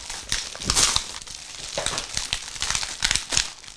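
Crinkling and crackling of gingerbread praline packaging being unwrapped, with many irregular bursts of plastic-like rustling at varying loudness and no voices.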